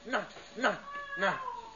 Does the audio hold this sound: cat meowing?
yes